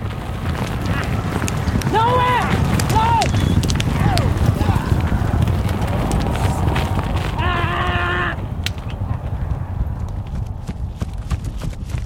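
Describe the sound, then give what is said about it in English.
Hoofbeats of an Arabian horse, picked up by wireless microphones fitted to each hoof: a dense, loud run of many rapid hoof strikes that continues throughout, with a voice heard over part of it. “I recorded an Arabian horse. Arabians have a different gait than thoroughbreds, and I put four wireless microphones on each hoof.”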